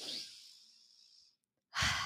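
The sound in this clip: Deep breathing in a guided breathing exercise: a soft, airy exhale trails off into silence, then a fresh, louder breath starts. It is quiet and breathy, with no talking.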